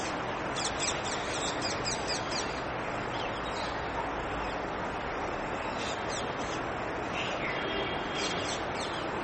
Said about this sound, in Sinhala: වාහන සද්ද ඇහෙනවා කුරුල්ලන්ගේ සද්ද ඇහෙනවා